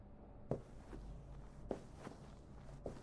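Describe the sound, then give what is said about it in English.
Footsteps of a woman walking toward the stairs in an audio drama. The steps are soft, slow and quiet, a few footfalls in an uneven pattern of heavier and lighter steps. “Melissa made her way to the stairs.”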